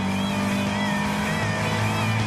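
A late-1970s car driving, its engine giving a loud, steady drone with a low hum throughout; no distinct braking sound stands out.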